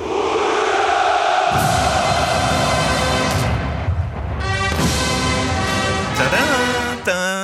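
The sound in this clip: Massed crowd cheering hurrah, a loud, sustained roar of many voices that swells in repeated long waves.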